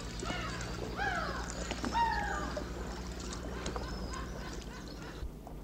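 Low, steady engine-like rumble of the Nautilus submarine setting off at full speed, with several high chirping, bird-like calls over the hum.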